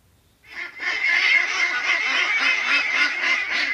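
A large flock of runner ducks quacking together in a dense, loud, overlapping chorus that starts abruptly after a brief silence and continues without pause.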